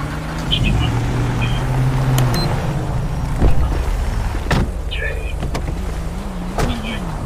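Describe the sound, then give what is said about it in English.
Car engine humming as a vehicle pulls forward in a police video game, a steady low whir with a brief louder thump near the middle and a wavering tone toward the end. “I'm gonna move my vehicle up.”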